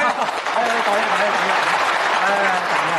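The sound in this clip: Villagers applaud to welcome their village head. Steady, dense clapping runs throughout while a man's voice talks over it.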